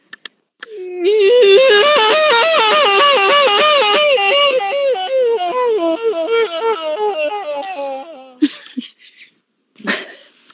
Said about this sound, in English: Then, light piano plays as she begins to wail, strikingly similar to that guy from Intervention. Best cry ever.